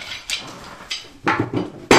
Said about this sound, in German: Und nun muss ich nur, damit wir es aufhängen können, unser Insektenhotel, rechts und links am oberen Ende zwei Nägel hineinschlagen mit dem Hammer.